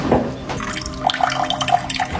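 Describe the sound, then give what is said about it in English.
Cold water runs from a kitchen faucet, a steady splashing flow with small, bright drip-like plinks scattered through it, in a home whose supply carries sediment. “Our cold water pressure in the kitchen.”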